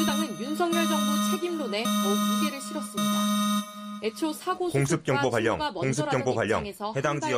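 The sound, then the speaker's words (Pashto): An emergency alarm on South Korean television warns people to take shelter after North Korean missile launches. A steady, harmonic-rich buzzing tone sounds for about four seconds with a voice over it, then spoken announcement continues alone. “د جنوبی کوریا پر تلویزیون د خطر دا زنګ خلکو ته خبرداری ورکوي چې خوندي ځایونو ته پناه یوسي.”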